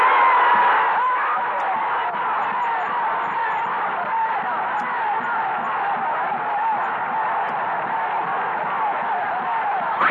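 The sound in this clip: A crowd shouting and yelling during a political speech about trade unions: a continuous, muffled roar of many voices, steady in loudness throughout with no clear breaks.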